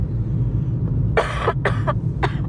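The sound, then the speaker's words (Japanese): A short run of a few dry, raspy coughs in quick succession over a steady low hum, with no talking around them. “ちょっと私今日咳が出ちゃうので、あの、静かにしてようと思います。”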